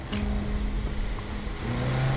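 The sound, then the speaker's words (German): A car engine revs hard, a red pickup truck pulling away near a warehouse among shipping containers: a steady low rumble that swells and steps up in pitch toward the end. “Ein Motor heult auf, nicht weit von ihnen. Da gibt jemand richtig Gas.”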